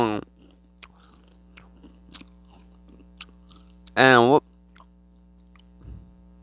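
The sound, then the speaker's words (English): A crunchy chip being eaten: a few faint, crisp chewing crunches and small clicks under mostly quiet, with one short voiced hum partway through. “I'm going to eat a chip. That was a chip moment. Need a chip moment right here.”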